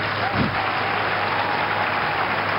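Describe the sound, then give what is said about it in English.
An audience at a church service claps for the Lord Jesus, a dense, steady wash of applause from many hands that holds at an even level from start to finish. “put your hands together and clap for the Lord Jesus”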